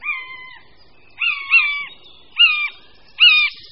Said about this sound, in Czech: Větší mláďata už se na hnízdě ozývají a žadoní po svých rodičích o potravu